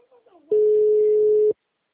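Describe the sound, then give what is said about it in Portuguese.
A telephone tone sounds as one steady, loud, mid-pitched note lasting about a second. It ends abruptly after a brief, faint murmur. “Deve ser o toque. Deve ser o toque.”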